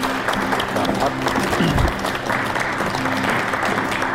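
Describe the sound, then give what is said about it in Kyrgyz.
Applause from a television studio audience seeing off a departing presenter: a dense, continuous patter of many hands clapping, holding at a steady, fairly loud level from start to finish without a break. “Буга чейин азаттыкты алып барып жүргөн биздин алып баруучубузду кол чаап узатканда.”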